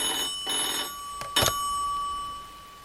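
A telephone rings in two short, bright electronic bursts, followed by a couple of sharp clicks, with a steady high tone continuing underneath and no voices.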